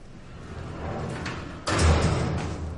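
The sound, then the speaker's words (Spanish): A door opens with a sudden loud rush of rumbling noise that cuts in over a steady background hiss and then slowly fades. “Una puerta se abre.”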